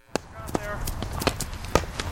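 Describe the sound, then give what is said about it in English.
Players run a practice drill in Irish hurling with wooden hurleys, producing several sharp wooden knocks and clacks spaced irregularly over quick running steps, while people talk. “That's the sound of players running a drill, practicing the traditional Irish sport of hurling. Players are armed with just a helmet and a wooden stick called a hurley.”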